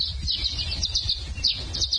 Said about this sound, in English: And what you're hearing here are violet green swallows